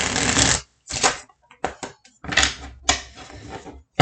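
Tarot cards shuffled during a card reading make a few loud, papery riffling bursts and softer flicks separated by brief gaps, with no voice.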